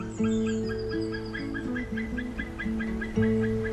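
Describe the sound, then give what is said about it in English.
Courtship duet of a male and female bird calling together on a branch, a rhythmic run of short repeated notes over steady, droning lower calls, even and moderately loud throughout. “That sound is really distinctive. And when they're courting, they'll do like a duet. So the male and female will sit together on a branch and just do, like we saw there, you know, they put the head up, open the beak”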